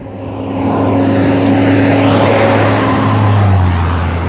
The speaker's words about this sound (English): It's a lot of noise. There's like three buses coming by.